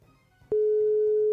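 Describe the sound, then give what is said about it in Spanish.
A telephone ringback tone plays on an unanswered call. After a brief quiet moment, a single steady mid-pitched tone starts abruptly and holds loudly to the end. “Si está sonando, sonó por segunda vez.”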